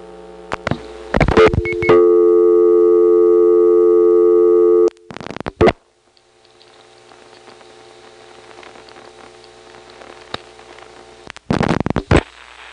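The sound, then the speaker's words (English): Telephone line sounds from a call routed through a T-carrier trunk out of Smyrna: clicks, then a steady, loud multi-tone signal for about three seconds, more clicks, then a long faint hiss ending in another burst of clicks. “this is a T-carrier trunk. I don't know whether to be excited or not, but at least we're making a call out of Smyrna without going through the ESS.”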